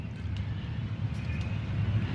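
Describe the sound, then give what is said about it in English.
Street traffic and public commotion in Aswan, Egypt, heard from the sun deck of a Nile River boat: a steady low rumble of vehicles with wind noise over it. “There is, of course, the public commotion, the traffic. There is the beautiful messages coming from the mosques. It makes you feel alive here.”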